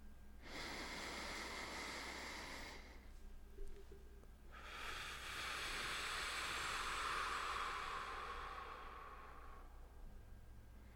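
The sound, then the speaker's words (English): Slow deep breathing in a relaxation exercise: two long, airy breath sounds, the first about two and a half seconds and the second a longer, fuller rush of air, steady and soft with no talk. “Let's take 5 deep breaths together to oxygenate all of our body systems to start.”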